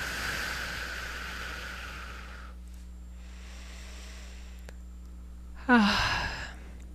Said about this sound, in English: Nice deep breath.